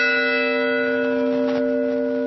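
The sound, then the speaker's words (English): Church bells ring out on a university campus in a memorial toll, a loud, sustained metallic tone with strong steady overtones that hum on without fading through the short stretch. “Bells rang on the campus of Virginia Tech today.”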